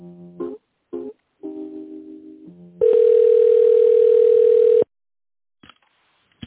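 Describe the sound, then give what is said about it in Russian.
Telephone tones while a call is being transferred: a few short, tonal beeps at shifting pitches, then one loud, steady tone lasting about two seconds, followed by silence and a brief click. “Хорошо, соединю вас с Тимуром.”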